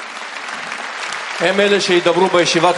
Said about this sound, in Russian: И это заслуживает аплодисментов